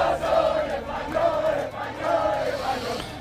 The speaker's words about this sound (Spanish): El ruido no ha parado en prácticamente toda la noche. El ruido de decenas de miles, de cientos de miles de aficionados eufóricos por la victoria de España en el Mundial